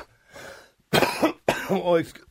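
Coughing from something caught in the throat: a soft breathy sound, then two loud, harsh coughing and throat-clearing bursts in quick succession.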